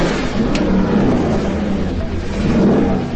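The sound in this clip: A Ducati Desmosedici motorcycle engine revving: a loud, dense, continuous roar that holds steady throughout without clear breaks.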